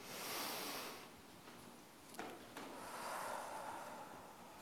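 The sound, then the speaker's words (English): Slow, deep breaths taken in and out, soft airy rushes that rise and fade in long swells, faint and unhurried. “I just want to take a moment and invite you to take three deep breaths with me. Ready?”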